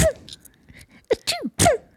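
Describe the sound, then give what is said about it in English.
A voice imitates small, held-back sneezes: a few short, stifled bursts with squeaky rising and falling pitch, separated by brief pauses, fairly loud and without other sounds. “I hate those small sneezes that usually girls in high school would do.”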